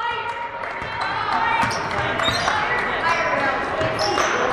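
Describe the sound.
Basketball dribbling on a gym floor during a high school game involving Marshfield, a run of sharp, repeated bounces under steady play-by-play talking.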